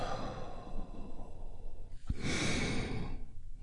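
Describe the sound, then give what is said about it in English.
A big, deep breath is drawn in and then released: a long, steady airy rush with a brief break near the middle before the slower outflow. “And we do that by taking a big, deep healing breath right now. Here we go. And release.”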